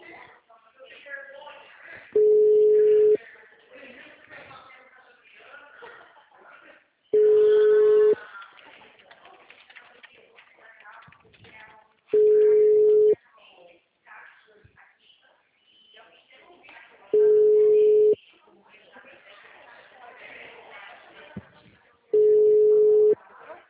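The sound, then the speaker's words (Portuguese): Telephone busy signal: five steady low beeps spaced evenly apart, with a person talking between the beeps. “Ligando, vai que o cliente atende. Peraí. O número está ocupado.”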